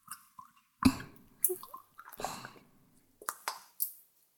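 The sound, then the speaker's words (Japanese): Squishy, wet rubbing and soft plopping sounds of a massage in a Japanese ASMR role-play come in several short, separate bursts with quiet gaps between them and no talking. “この感触、問題なければこのままマッサージさせていただきます。”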